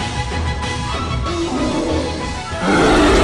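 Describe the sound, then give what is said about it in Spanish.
A hungry bear roaring, a rough, low, noisy growl that grows louder near the end, with no talk. “Es un oso y tiene hambre.”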